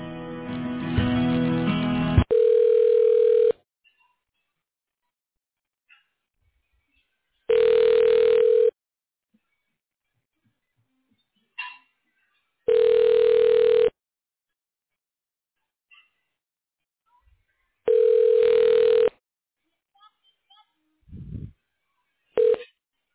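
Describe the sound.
Telephone ringback tone during a call transfer: four steady, evenly spaced tone bursts, each about a second long with roughly four seconds of silence between them, and a fifth cut short at the end.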